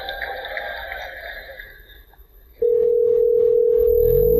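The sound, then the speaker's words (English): Telephone dial tone as an automated assistant places a call to a hair salon: after a quieter opening, a loud, steady, unbroken tone starts abruptly and holds to the end. “what you're going to hear is the Google Assistant actually calling a real salon to schedule the appointment for you”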